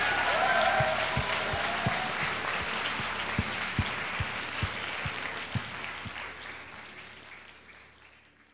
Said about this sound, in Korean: 아버지 되시는 하나님께 우리를 사랑한다 하시는 하나님께 큰 박수를 한번 보내드립니다.